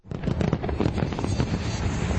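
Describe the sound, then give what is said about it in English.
Fireworks display over Victoria Harbour in Hong Kong for Chinese New Year, a dense, continuous rush of crackles and pops with deep booming underneath, steady and loud throughout. “Residents in Hong Kong rang in the Chinese New Year Saturday with an extravagant fireworks display over Victoria Harbour.”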